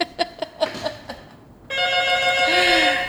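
Telephone ringing for an incoming call: a quick series of short ringing pulses, then a sustained, steady electronic tone that rings on loudly to the end.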